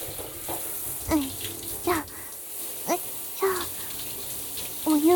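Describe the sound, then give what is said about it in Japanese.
Water runs steadily while shampoo is rinsed out of hair, a continuous broad wash with a few brief soft vocal sounds rising over it. “それじゃ、流していきましょうか。シャンプーが入らないように、ちゃんと目を閉じててくださいね。”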